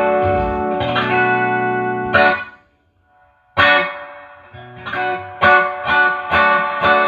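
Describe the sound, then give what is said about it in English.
An electric guitar plays through an effects pedal that emulates spring reverb, with every setting turned fully up. Several bright chords ring out with lingering tails, then a brief near-silence, then more chords. No one speaks. “That's maxed out. Everything's maxed out, and that's what it sounds like. It's not a whole lot. Not a big reverb. So that's an actual spring. This is emulated spring.”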